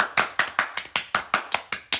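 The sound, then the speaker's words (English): Hands clap in a steady, even rhythm, about ten sharp claps spaced roughly a fifth of a second apart. Each smack is crisp and loud and decays quickly before the next, with no talking. “One more clap.”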